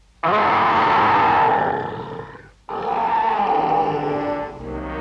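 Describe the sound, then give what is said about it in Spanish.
A voice imitates a bear's roar in two long, loud, guttural roars, the first fading out before a short gap and the second holding strong nearly to the end. “Ahora dame un buen rugido de oso. ¡Espántame!”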